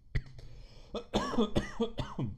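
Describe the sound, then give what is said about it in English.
Coughing from a man on the radio: a series of harsh, hacking coughs in uneven bursts, with rough, throaty rasps between them. “I have a dump button and you wouldn't have to hear me cough and hack up a lung”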